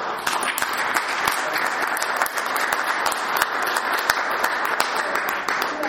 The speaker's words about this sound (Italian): Posso dire un applauso? Noi facciamo un applauso.